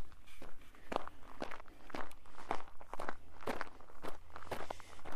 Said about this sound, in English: I stepped out of the house here, and we're going to be walking up the big hill.